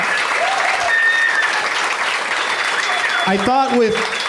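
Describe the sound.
Studio audience applause for the guests of a show, a loud, continuous wash of clapping. Voices whoop and cheer over it toward the end.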